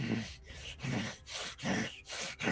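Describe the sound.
A voice imitates the heavy breathing of a wounded creature stabbed with a javelin through the chest, with loud, rasping breaths in and out in a steady, labored rhythm of several cycles and no words spoken.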